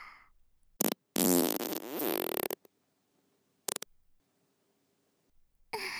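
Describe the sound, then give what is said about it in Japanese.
A fart comes as a few abrupt raspy bursts, one long sputtering blast lasting over a second, with shorter puffs before and after and quiet stretches between. “これだよ。お姉ちゃんのおなら。”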